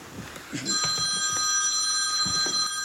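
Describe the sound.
A telephone rings with a steady electronic tone made of several high, bright pitches. It starts abruptly just after the opening moment and continues without a break to the end. A few soft low sounds occur beneath it.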